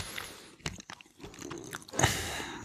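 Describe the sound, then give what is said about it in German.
Chewing on whole mustard seeds from Polish mustard: a few soft, irregular crunches and moist bites, quiet and without talk, with a louder crunch near the end. “Nackige Senfkörner esse ich.”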